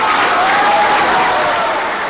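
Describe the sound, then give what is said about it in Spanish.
Audience applause honoring a teacher and a chamber orchestra at an event, a dense, loud, steady wash of clapping that fades slightly at the end. “queremos agradecerle a la maestra Cecilia Tapia, nuestra compañera y querida amiga, este merecido aplauso.”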